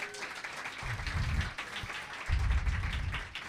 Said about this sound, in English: So please put your hands together for our wonderful storytellers tonight.